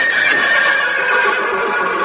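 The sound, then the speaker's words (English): A female horse neighs in one loud, sustained whinny. The shrill, wavering cry fills about two seconds and stands alone, with nothing else under it. “when this horse neighs, she means no. And when she whinnies”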